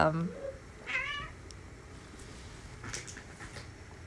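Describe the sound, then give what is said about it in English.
Two cats yowling at each other: brief, wavering meows sound near the start and fade quickly, followed by faint rustling and low background noise. “I just had two cats that were yelling at each other right next to my face”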